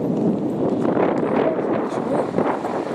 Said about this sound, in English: oh, I'm walking into the wind again. I might actually walk backwards.